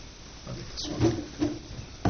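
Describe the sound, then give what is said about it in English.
Doors are opened at a meeting after a closed session, giving a few soft wooden knocks and handle clunks spaced apart, with no talk during the sounds. “I'll open the doors.”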